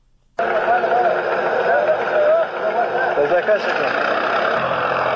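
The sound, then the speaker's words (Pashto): Tractor ploughing up poppy fields in Nawzad district, Helmand, its engine starting abruptly after a brief silence and then droning in a steady, loud rumble, with some talk heard over the motor. “دا د هلمند په نوزاد ولسوالۍ کې پر ټراکټور د کوکنارو د کښت اړولو غږونه دي چې د طالبانو سیمه ییزې ادارې له رسنیو سره شریک کړي دي.”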